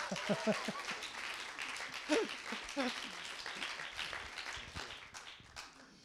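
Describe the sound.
An audience welcomes a speaker at a talk on prophecy with moderate clapping that runs throughout, while voices speak over it.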